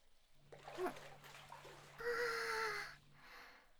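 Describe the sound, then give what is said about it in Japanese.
Hot water splashed over the body before stepping into a bath: a loud, rushing splash lasting about a second, preceded by a few smaller splashes, over a faint low hum. “早くお湯に浸かりたいところですけど、まずはしっかりかけ湯をして。”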